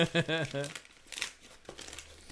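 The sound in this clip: Wrapping paper crinkling and tearing as a small cube-shaped present in a package box is opened, a steady rustle that follows a brief voice at the start.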